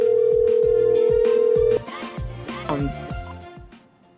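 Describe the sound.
A telephone call rings out before reaching voicemail: a loud steady line tone holds for almost two seconds, then cuts off, and a voice is heard.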